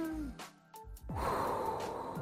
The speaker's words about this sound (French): Oui, c'est chelou, le générique, c'est un monsieur qui respire. Je sais pas, ça fait un peu calmos.